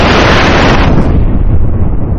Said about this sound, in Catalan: Aleshores esclata un gran tro.